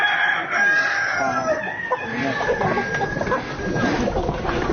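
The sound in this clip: A flock of chickens clucks while a rooster crows, the crow a long sustained call through the first few seconds. Busy, overlapping clucking fills the whole stretch at a fairly loud level.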